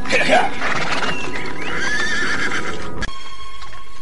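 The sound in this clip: A tired horse neighs with a loud, wavering whinny at the start and a further whinny midway, over steady clip-clopping hooves, ending with a sharp click.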